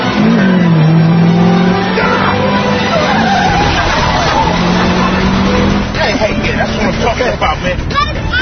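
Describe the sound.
A car driving fast, its engine roaring and shifting pitch throughout at a loud, steady level, with voices heard over the engine noise.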